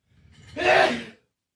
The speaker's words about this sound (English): just had a quick sneeze